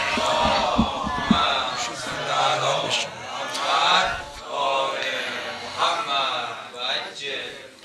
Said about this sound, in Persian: تعجیل الفرج امام زمان علیه السلام، صلواتی بلند عنایت کنید.